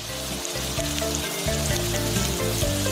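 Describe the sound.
Scallion oil simmering with scallion segments, chunks of ginger and shredded onion, giving a continuous soft sizzle and bubbling hiss over a low steady hum, with no talk.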